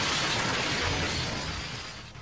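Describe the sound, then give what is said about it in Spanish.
A bus crash produces a dense, harsh crashing roar with a shattering, glassy edge, sustained for about two seconds before slowly tapering off. “Chocó la micro, ¿ah? ¿Eh? Sí, chocó la micro.”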